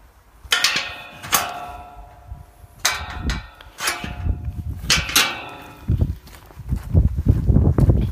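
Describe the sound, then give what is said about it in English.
Footsteps crunch along a walking trail just past a trailhead on the route to a remote bothy, a few louder scuffing steps rising out of a steady, uneven run of quieter footfalls. “So as you can probably hear, we are on a walk, obviously, and we've just entered the trailhead on the route to”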